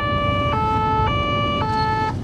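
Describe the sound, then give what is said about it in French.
A customs car's two-tone siren wails on the motorway, loud and steady, switching between its two pitches about four times over a continuous low road rumble. “J'ai mis le deux tons, j'ai mis les bleus.”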